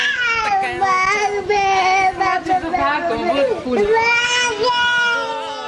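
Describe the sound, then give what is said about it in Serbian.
A 20-month-old child vocalizes almost without pause in high, wavering whimpers and crying-like cries, with some babbling, loud and sustained. “Ume onda da bude nosilac tišine kad hoće, ali naravno kao i svako dete od 20 meseci ponekad pravite interrupcije u tišini.”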